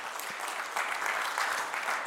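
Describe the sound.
A church audience gives a short burst of dense, steady applause that welcomes someone to a soup-kitchen team.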